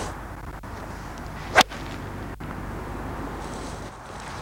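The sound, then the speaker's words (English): A single golf shot with a TaylorMade 4-iron hybrid, heard as one sharp, crisp strike that stands out against steady wind noise. “And this was very easy to hit. I've been having a lot of shots with this club, and certainly the 4 is just very forgiving indeed.”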